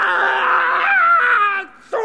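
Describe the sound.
A person screaming: a loud, sustained, harmonic wail that holds its pitch, then sags and drops near the end, breaks off into a brief gap, and starts again abruptly.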